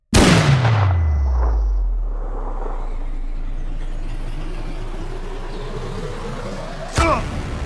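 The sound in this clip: A rifle shot taken at a target cracks out as one sharp, loud blast, trailed by a long, low rumble that falls in pitch and fades. Another sharp impact hits near the end.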